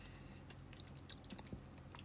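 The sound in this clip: Faint chewing of food during a meal: soft, wet mastication with a few slightly louder crunchy bites, heard alone at low volume.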